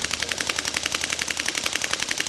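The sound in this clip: A Sterling Mark V submachine gun fires on a range in one short, rapid automatic burst of many evenly spaced, sharp shots. The firing is moderately quiet throughout.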